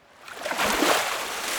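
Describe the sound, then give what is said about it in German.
Small splash of water flicked toward someone: a brief rushing, spraying hiss that swells within about half a second and then holds as a steady wash of noise. “Und um seinen Freund zu necken, schiebt Toni einen kleinen Wasserspritzer in Gustis Richtung hinterher.”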